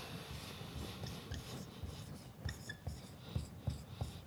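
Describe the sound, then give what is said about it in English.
Pen scratching across paper while someone writes notes, a faint, continuous rubbing texture broken by small, quick strokes. “Maybe I'll write these down. This is the wrong pen.”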